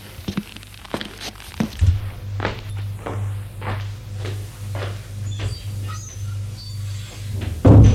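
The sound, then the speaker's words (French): Soft footsteps in slippers go down to a kitchen, a steady run of many muffled thuds over a low hum, ending with a louder knock. “Il descend à la cuisine prendre son petit déjeuner.”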